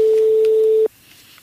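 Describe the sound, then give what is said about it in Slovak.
A mobile phone ringing as a single steady, mid-pitched electronic tone that holds for under a second and cuts off abruptly, leaving near quiet. “Ako to niekomu zvoní tak dlho mobil? Ten kde ho má?”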